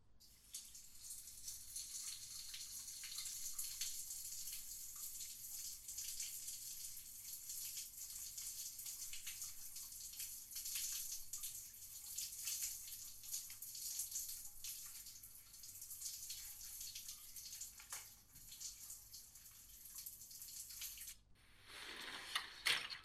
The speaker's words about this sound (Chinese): 那好吧，那我先去洗澡啊。